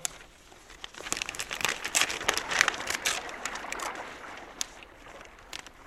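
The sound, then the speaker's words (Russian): Paper crinkles and tears as a parcel of mail is opened by sailors: many irregular rustling, crackling bursts, moderately quiet, with no talking. “дайте-ка мне вон тот пакет. Так, вскроем его.”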